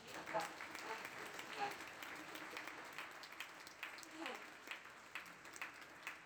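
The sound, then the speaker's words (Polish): A church audience applauding to praise God during a service. Soft, steady clapping runs the whole way through, with a voice faintly audible over it. “Oddajmy Bogu oklaski.”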